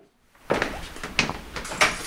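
Unlocking of an office door at National Front Party headquarters in Paris: a few short, sharp clicks and knocks of the latch and handle, moderately loud against quiet, with no one speaking.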